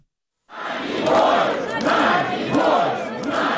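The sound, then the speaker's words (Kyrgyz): Protesters gathered outside the Russian embassy in Kyiv shout in unison. Their loud crowd chant rises in repeated, rhythmic swells after a moment of silence. “Киевтеги орус элчилигинин жанына чогулгандар Надеждага эркиндик деп кыйкырып турушту.”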